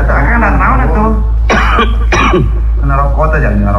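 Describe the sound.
Two loud, harsh coughs burst out in the middle of talking, with people speaking before and after over a steady low hum.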